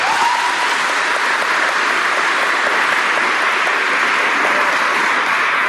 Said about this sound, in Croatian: Molim vas da svaku od sljedećih ekipa pozdravite velikim aplauzom.